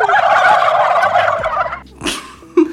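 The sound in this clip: A turkey gobbles loudly in a fast, warbling rattle that lasts nearly two seconds, followed by a few shorter, fainter calls.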